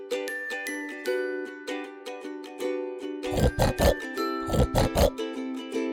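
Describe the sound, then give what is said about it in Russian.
Wild boar grunting: two clusters of short, rough, low grunts in quick bursts over a sustained tonal chiming background. “Кабан.”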